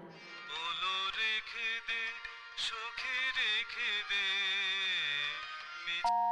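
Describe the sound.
A mobile phone ringtone playing a song: a melodic sung line with wavering vibrato over a musical backing, fairly steady in level throughout.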